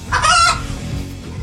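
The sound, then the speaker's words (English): A rooster crows once, a loud, bright call in the first half-second that tails off into a low, steady rumble. “That's just a rooster.”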